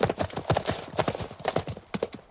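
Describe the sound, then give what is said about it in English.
Horses' hooves clatter as riders set off together, a rapid, uneven stream of sharp clip-clop hits that overlap in a busy, galloping rhythm. “They ride off in the opposite direction.”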